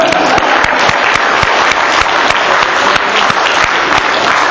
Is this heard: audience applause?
yes